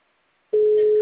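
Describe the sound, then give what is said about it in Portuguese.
A telephone line tone sounds while a call is placed to someone's number. After half a second of silence a steady, loud, mid-pitched tone starts abruptly and holds without a break. “Eu tô ligando pra ela. Tô ligando aqui, ó. Já disse quem tô discando. Tô vendo se ela atende.”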